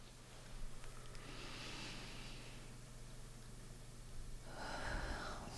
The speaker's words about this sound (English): let's all take a moment together right now, and let's take a very deep breath.